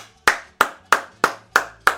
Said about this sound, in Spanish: Y este aplauso, Cristiano.